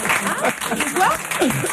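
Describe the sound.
Studio audience applause greets the winner of the French reality race Pékin Express, a short burst of clapping mixed with voices talking over it.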